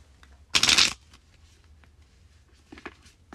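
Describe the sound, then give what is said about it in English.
Tarot cards are shuffled and drawn in one short, loud riffling burst, followed by a few faint soft rustles and clicks of the cards. “Let's pull a fourth card here.”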